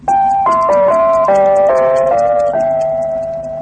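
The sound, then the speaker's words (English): The RIAS radio station identification tone from Berlin, a clear chime melody of several bright, steady pitched notes that step up and down, the last one held long and slowly fading. “That was the RIAS identification tone, the sound that tells all RIAS listeners, both in East and West Germany, that they are tuned to the channel that assures them of accurate information and good programming 24 hours a day.”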